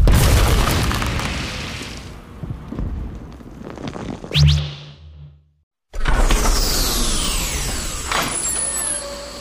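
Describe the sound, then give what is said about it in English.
A grenade explosion: a rumbling whoosh builds to a thud, then a brief silence, and a loud, sudden blast erupts and decays into a long roaring tail. “Hold this. Is this a grenade?”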